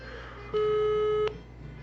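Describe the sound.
Ringback tone of an outgoing telephone call: one steady mid-pitched tone lasting under a second, rising sharply out of a faint background hum and cutting off cleanly.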